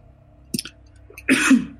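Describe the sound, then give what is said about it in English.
A person coughs: a short harsh burst, then a longer, louder rasping cough, with no talk in between. “Excuse me, I'm coughing here.”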